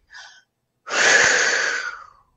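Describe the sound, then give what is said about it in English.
A person takes a deep breath: a brief airy sniff, a short pause, then a long, loud, rushing inhalation lasting over a second before fading out. “if you can catch yourself and just take 3 breaths, like, that's it. Even just 1 breath can make all the difference.”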